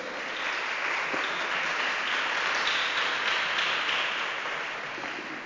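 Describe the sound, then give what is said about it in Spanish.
Sustained applause from a church audience: a dense, steady wash of clapping that holds evenly for about five seconds, with no voices over it. “Así que desen un fuerte aplauso, por favor.”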